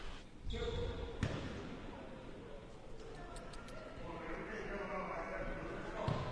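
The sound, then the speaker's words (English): A basketball bounces a couple of times as a player dribbles calmly before a free throw at a basketball game, the soft thuds under a man's steady talking. “Couple of calm dribbles. Deep knee bent, shots up, and banked in a free throw.”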